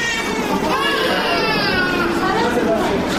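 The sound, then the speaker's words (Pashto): Children sick with diarrhoea cry at the provincial hospital in Tarinkot. Several infants and young children wail continuously in wavering, high-pitched cries, with adult chatter mixed in beneath them. “دا جړاوی د ترنکوټ په ولایتي روغتون کې د هغه ماشومانو دي چې د نس ناستي په ناروغي یخته دي او د کورنۍ غړي یو د درملنې لپاره ولایتي روغتون ته راوړي.”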